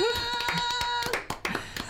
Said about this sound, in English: One more round of applause. Yay!